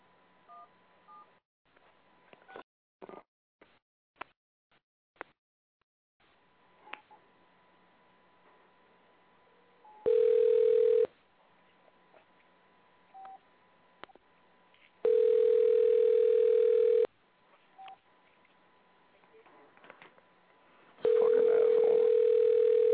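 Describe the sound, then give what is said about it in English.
Phone call tones after a phone is unmuted: a few scattered clicks, then three long, steady, loud beeps separated by pauses, with no talking. “Let me unmute this phone. All right, here we go.”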